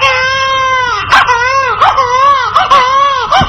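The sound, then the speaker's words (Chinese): Loud, continuous infant-like crying in a northeastern Chinese folk stage skit: high, wavering wails broken by short sobbing catches. “别哭了啊！别哭了”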